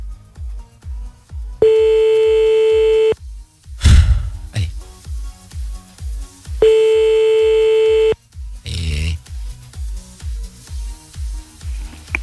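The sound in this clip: Ringing tone of an outgoing telephone call: two long, steady, pitched tones separated by a silent gap, heard over a rhythmic, thumping music bed with a couple of short noisy bursts.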